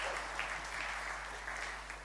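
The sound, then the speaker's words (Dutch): Faint applause from a small audience at a faith gathering, a soft, even patter of clapping hands that stays steady throughout, with a low electrical hum beneath. “Ik geef jullie even een applaus voor het allemaal doen.”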